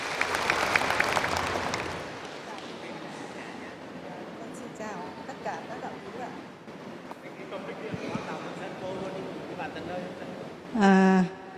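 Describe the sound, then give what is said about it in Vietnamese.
An audience at a Buddhist gathering applauds to welcome a lay Buddhist speaker. A brief burst of clapping lasts about two seconds, and then a voice begins talking over quieter background sound. “Xin đại chúng hãy dành một tràng vỗ tay thật lớn để chào đón Phật tử ạ.”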